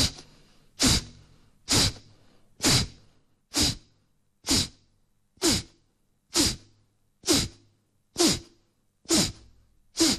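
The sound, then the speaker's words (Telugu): Rapid, forceful kapalabhati breathing through the right nostril with the left nostril pressed shut: a long, steady train of sharp, snorting exhalations, evenly spaced about one per second, each burst equally loud and brief. “ఎడమ ముక్కు రంధ్రాన్ని ఎడమ చేయి యొక్క బొట్టునేలతో ఒత్తిడి చేస్తూ కుడిముక్కు రంధ్రంతో కపాలభాతి క్రియ చేస్తాం. దీన్ని దక్షిణ కపాలభాతి అని అంటాము.”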